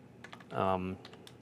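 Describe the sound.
Faint typing on a computer keyboard, with a few soft, scattered clicks before and after a brief hummed vocal sound.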